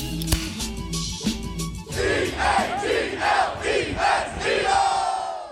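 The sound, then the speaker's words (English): A baseball stadium crowd roars at Citizens Bank Park as the Phillies take the lead. Loud, sustained cheering rises into rhythmic, chant-like swells of massed voices. “It is Bedlam at the bank as Bryce Harper has put the Phillies on top.”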